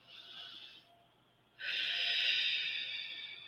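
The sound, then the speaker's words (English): A person takes a deep breath during a guided relaxation exercise, with a soft airy inhale, a short pause, then a longer and stronger breath out that fades slowly. “So before we get started, I would like to just all of us take a few deep breaths.”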